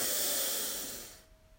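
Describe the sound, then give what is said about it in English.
Deep belly breath released during a guided meditation, a soft, airy hiss that fades away over about a second, with no talking. “So we begin by taking three deep breaths all the way from the bottom of our belly.”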